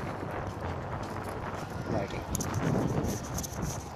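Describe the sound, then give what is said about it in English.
Wind buffets an outdoor microphone as a steady, loud rumble and hiss that fills the whole stretch and swells slightly partway through. “most likely this next section is going to be so windy that I'm going to have to cut the whole thing”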